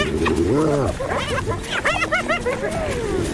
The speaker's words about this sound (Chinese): 当其他班猎狗也加入战斗，胜利就是属于他们的